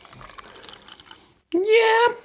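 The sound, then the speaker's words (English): Rose-scented drink poured from a bottle. After a quieter opening, a bright liquid gurgle starts abruptly and holds for under a second, its pitch rising steadily as the vessel fills. “I can smell the rose from the bottle. But let's see, they said when I pour it.”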